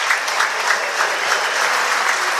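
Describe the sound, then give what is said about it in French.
Sustained applause from a stadium crowd at a football match during a minute of applause: a dense, steady roar of clapping that holds an even loudness with no breaks. “Et la minute de silence. La minute d'applaudissement, pardon, pas de silence.”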